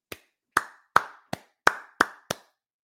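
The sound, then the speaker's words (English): Seven crisp hand claps in honor of the New York Knicks basketball team, delivered one at a time in an even, moderate rhythm, each a sharp slap with a short ring, alone without voices or crowd. “Let's take a moment and applaud the New York Knicks”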